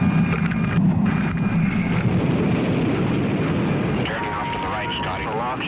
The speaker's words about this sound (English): Launched from beneath a B-52 bomber, America's X-15 flew beyond the atmosphere into space. Launch.